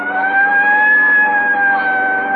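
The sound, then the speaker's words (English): A police car siren sounds loudly as a sustained, steady wail whose high tone swells slightly in pitch and then eases, alone with no voices. “Right, I'll hit the siren. You get the light.”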